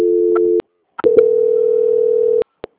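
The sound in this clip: During a call transfer, a phone line gives a steady mid-pitched tone that breaks off with clicks. A longer unbroken tone follows, ending in another couple of clicks.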